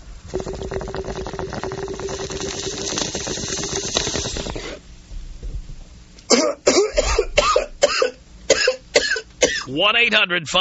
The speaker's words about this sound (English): maybe if you could take me out with a bong rip with a cough on it.